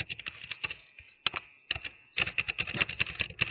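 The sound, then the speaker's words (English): Keyboard typing comes from a caller on a phone line: faint, rapid, irregular clicks in bursts, broken by a couple of short pauses before a denser run of keystrokes. “I'm assuming she doesn't want to talk. She wants to type.”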